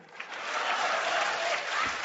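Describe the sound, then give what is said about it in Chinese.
Warm applause from an audience: dense, steady clapping that rises quickly and holds at an even, fairly loud level for the whole brief moment. “嘿，热烈鼓掌”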